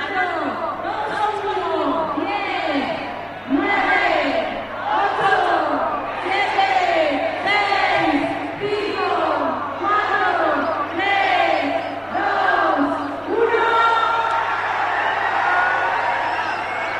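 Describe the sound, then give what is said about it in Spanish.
A crowd at the Barbastro festival chants a countdown before the chupinazo, with many loud, evenly spaced collective shouts rising and falling in a steady rhythm. “Vamos a escuchar, porque esta era la cuenta atrás antes del chupinazo de inicio de fiestas.”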